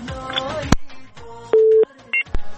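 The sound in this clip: Telephone line tones sound as a radio call-in line connects the next caller: clicks and muffled voice first, then a steady mid-pitched beep, followed by a second, briefer tone.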